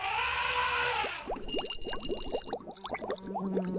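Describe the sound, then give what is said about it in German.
Short jingle for a German radio biology-news segment, opening with a rush of pouring liquid. Many quick, bubbly plops and brief high tinkling tones follow in a busy, playful pattern. “Komm, fahr das Jingle ab, Roman. Drück aufs Knöpfchen.”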